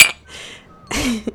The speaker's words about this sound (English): That was the sound of two cocktail glasses toasting.